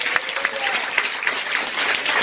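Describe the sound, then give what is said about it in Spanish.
An audience claps during a church service, a dense, even wash of applause with brief louder claps standing out and faint voices underneath. “Por ese aplauso y alabanza.”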